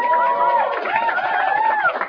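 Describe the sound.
Students and teachers from a high school cheer with sustained whooping voices that hold steady and loud for the whole stretch.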